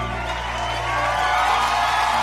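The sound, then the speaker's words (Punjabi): A crowd cheers and whoops loudly in tribute to an honoured poet at a recorded literary event, a sustained roar of voices that swells slightly toward the end. “ਜ਼ੋਰਦਾਰ ਤਾਲੀਆਂ।”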